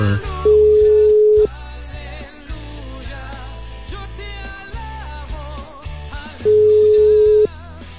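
A telephone ringing tone sounds while the caller waits for an answer. Two long, steady, mid-pitched tones about a second each ring out at the start and near the end, with continuous melodic music playing underneath and between them.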